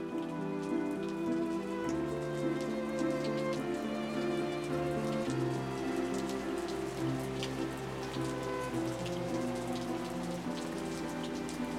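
Steady rain pattering on a surface, a constant fine hiss of drops running throughout beneath sustained soft musical tones.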